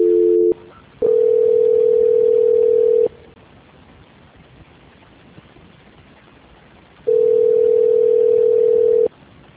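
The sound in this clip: Steady telephone tones sound on a phone line while a call is being transferred: a brief two-note beep, then two long, even tones of about two seconds each at one pitch, with a quiet gap of faint line hiss between them.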